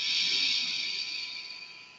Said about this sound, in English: Take a deep breath in through your nose.